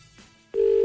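Ringback tone of an outgoing telephone call: one steady, loud tone that starts partway through and holds to the end.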